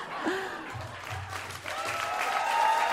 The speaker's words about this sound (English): Wow, what a toast. Guys, give it up for Darcy Carden.